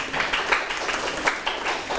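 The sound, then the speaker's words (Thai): Students in a classroom clapping for a classmate, a few scattered, uneven hand claps from a small group, moderately loud and without talk. “ใช่ไหมลูกปรบมือให้เพื่อน”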